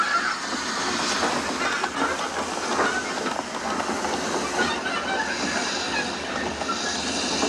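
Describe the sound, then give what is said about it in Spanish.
A train comes to a stop in front of a derailed train on the track. A steady hissing rumble carries faint clattering from the rail cars throughout. “el tren en el que va Gandhi se detiene ante otro tren descarrilado”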